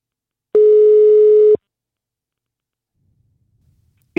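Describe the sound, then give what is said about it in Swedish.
A telephone ringback tone sounds while someone is being called. It is one steady, loud, mid-pitched buzz lasting about a second, followed by silence. “Vi har därför ringt upp henne”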